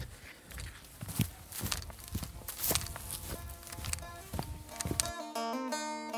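Footsteps walk steadily outdoors toward neighbouring houses, a regular run of soft crunching steps over low background noise. Near the end, tonal music enters and takes over.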